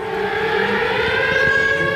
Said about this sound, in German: Kurz darauf heulen tatsächlich die Sirenen, Luftalarm.